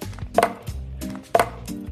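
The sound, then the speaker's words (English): Frozen coconut milk ice cubes dropping into a blender, giving two sharp clunks about a second apart over a low, steady background. “So we want to get about 1 cup of the frozen coconut milk ice cubes into the blender.”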